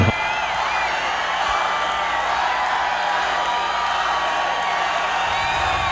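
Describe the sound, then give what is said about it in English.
A concert crowd at the Mid-South Coliseum in Memphis calls for an encore, a steady wash of cheering and scattered whoops that holds an even level from start to finish. “I'm sure you can hear it in the background. The crowd chants for more at the Mid-South Coliseum in Memphis.”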